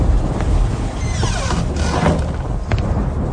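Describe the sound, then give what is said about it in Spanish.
Storm wind during a lightning storm roars as a dense, steady whoosh throughout, with swelling gusts and no clear break. “¿No ve que tenemos tormenta?”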